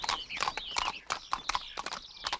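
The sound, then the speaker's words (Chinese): Hooves of a horse pulling a carriage clip-clop in a steady, brisk rhythm of many sharp, moderately loud knocks, with no voices. “马车继续朝着人们砍柴的地方走。”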